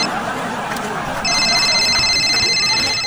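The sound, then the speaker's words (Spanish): An electronic telephone ringtone for an incoming call starts partway through as a bright, steady, repeating tone. It holds to the end over a busy background. “Ya me están marcando.”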